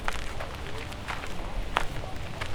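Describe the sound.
Footsteps of people walking along a route behind a salon at Ruigoord, a series of irregular, soft treads and scuffs over a steady, noisy background.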